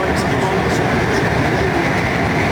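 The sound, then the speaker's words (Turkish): Loud, steady roar of a metro train running at high speed, close to 120 km/h, a dense continuous rumble that holds level throughout without pause. “Maksimum metro hızları 80 kilometre. İki defa biz bu metroda 120 kilometreye çıktık.”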